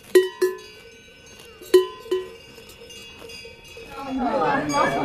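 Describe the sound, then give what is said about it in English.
Cowbells clank as cows come home to the Obermeerhof barn during the seasonal transhumance, with several bright, ringing metallic strikes in an uneven rhythm near the start, each decaying slowly, followed by a few softer clanks. “And then at last, the cows come home, flopping on the grass behind the Obermeerhof barn, the jagged snow-crested mountains shimmering in the distance.”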